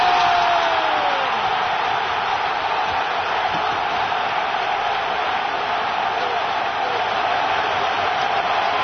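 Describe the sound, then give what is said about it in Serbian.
A roaring stadium crowd of about 50,000 at Rajko Mitić stadium celebrates a Crvena zvezda football goal against Young Boys, a dense, unbroken wall of cheering that stays loud throughout, with a voice briefly audible at the start. “gol! 1-0, 1-0 za Crvenu zvezdu i oduševljenje 50.000 navijača na stadionu Rajko Mitić.”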